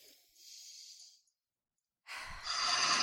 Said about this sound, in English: Deep breath.